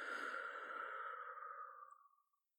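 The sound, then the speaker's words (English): One long, slow breath pushed out during a medical examination's breathing exercise, a soft airy rush that holds steady, then thins and fades to silence, with no talk over it. “Breathe in through your nose for 3 and then out. Okay. Okay, breathe in. 1, 2, 3 and out.”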